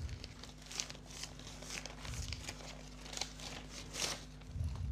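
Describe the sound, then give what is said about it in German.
Paper crinkles and tears as an envelope is torn open, a faint series of short rustling, crackling bursts with no voices. “dann öffne ich diesen Umschlag.”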